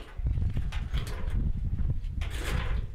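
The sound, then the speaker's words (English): A sliding shower door is pulled shut, giving a continuous rumbling, rolling scrape with a few sharp clacks along the way, fairly loud throughout. “And then I would close this door to hold it.”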